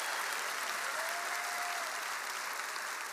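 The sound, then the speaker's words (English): Applause from a church audience at Cornerstone Church in San Antonio: a dense, steady wash of clapping hands that holds at an even level throughout, with no single claps standing out. “Put your hands together and welcome King Jesus into the house.”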